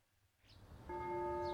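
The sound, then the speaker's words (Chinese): A single bell rings faintly to summon students to a school's grounds after breakfast, its steady, sustained tone starting partway through over a quiet background. “早餐后，钟声准时响起，将全部学员召集到学院的操场上。”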